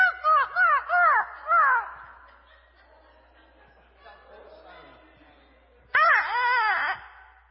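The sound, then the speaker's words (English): A voice imitates the whining cry of a distressed rabbit. Four quick, wavering high wails come first, then a stretch of quieter murmuring, then another loud burst of wailing calls. “I make the sound of a whining rabbit that's in distress.”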